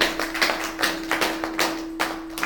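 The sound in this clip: An audience claps at a spiritual talk by a guru, giving many irregular, fairly loud claps over a steady low hum.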